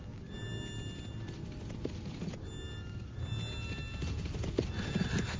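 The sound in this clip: Hooves of horses being ridden clip-clop in a steady, busy rhythm of many beats, with a whinny rising briefly over the trampling.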